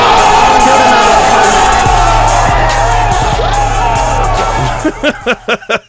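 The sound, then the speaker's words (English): A big crowd cheers, whoops and yells loudly and steadily, dropping at the end into a few short, separate bursts of cheering. “I had to add the big cheers and everything in the end.”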